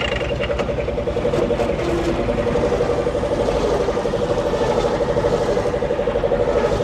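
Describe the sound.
A car engine runs steadily with a low rumble and a constant droning hum. The level stays even throughout, with no clear revving.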